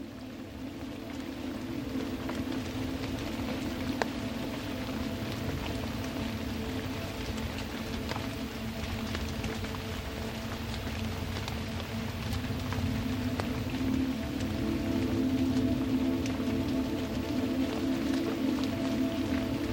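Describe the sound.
Rain falls steadily for about twenty seconds as a continuous dense hiss with scattered drop patters. A low, even drone runs beneath it the whole time.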